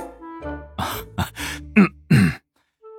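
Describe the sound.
A man's dry cough during a tense conversation: a few short, rough bursts in quick succession, fairly loud and without speech.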